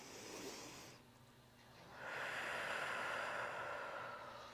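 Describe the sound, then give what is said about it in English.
A deep breath is drawn in as a soft, airy hiss that begins partway through and holds steadily to the end, faint and unhurried. “So let's take a deep breath together.”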